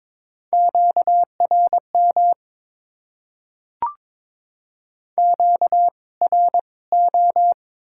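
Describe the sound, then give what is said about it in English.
Radio interference comes through as clusters of short, identical high beeps at one steady pitch, broken by a single click and a pause before the pulsed groups resume, loud and alone. “High power. Interference.”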